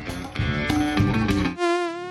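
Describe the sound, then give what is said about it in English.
A mosquito's thin, high buzzing whine drones steadily and loudly on its own, wavering slightly in pitch, right after a burst of music ends. “Production downtime due to malaria endemic? Suplock introduces to you Tavard, the trusted and leading brand for mosquito repellents.”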